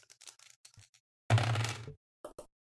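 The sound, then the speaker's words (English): Two dice rolled in a tabletop game clatter in one brief burst of about half a second, preceded by faint ticks and followed by a couple of sharp light taps. “This is a two-dice bandit roll, right? This is 100% a two-die bandit roll.”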